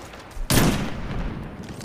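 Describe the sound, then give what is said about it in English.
A single sniper rifle shot in the video game Destiny 2: a sharp, loud crack with a rumbling tail that fades under a steady bed of game noise. “Where's that one guy? I want to snipe him from a distance.”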